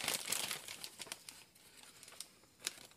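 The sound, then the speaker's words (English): Paper slips crinkle and rustle as a name is drawn by hand for a prize drawing: a continuous dry crackling with a few sharper crinkles, fairly faint and with no voices. “let me draw the second name out of here.”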